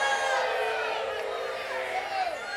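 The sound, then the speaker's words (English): Crowd booing rises as a sustained, layered drone of many voices, fairly even in loudness and fading slightly toward the end. “like I care about your booing. I don't have any cares at all.”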